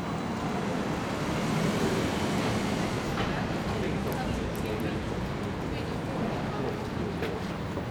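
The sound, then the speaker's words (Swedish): London Underground train riding toward Waterloo Station: a loud, continuous rumble of wheels and carriage noise runs throughout, with faint high squeaks and ticks appearing in the second half. “dikt i knät på tunnelbanan på väg till Waterloo Station”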